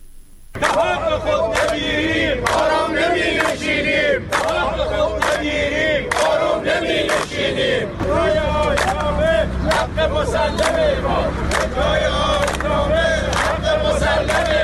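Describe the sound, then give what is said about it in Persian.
Retired telecommunications company workers chant together at a protest. Loud shouted phrases repeat in a rhythmic pattern over a constant crowd hubbub. “این صدای شماری از بازنشستگان شرکت مخابرات است که میگویند تا حق خود را نگیرند آرام نمی نشینند.”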